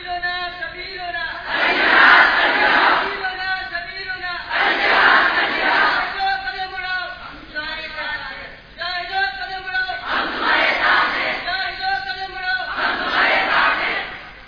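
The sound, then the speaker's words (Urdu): Crowd chanting religious slogans in call-and-response: a lead voice alternates with loud massed shouts from the group, repeating in a steady rhythm throughout. “یہ نعرے لگانا غیر شرعی کام نہیں ہے”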